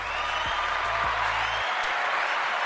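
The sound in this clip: Applause and light crowd noise serve as a sound effect welcoming an artist. The clapping is a steady, continuous wash of moderate loudness, with no pauses or voices.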